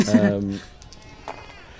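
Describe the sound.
A single wavering, nasal bleat from a goat during a tabletop role-playing game scene, loud and brief at the start, then only faint low background noise follows.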